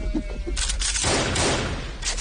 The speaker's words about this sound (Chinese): 张成文斜睨着何国梁，拔出双枪，抬手两枪，两只飞鸟应声落地。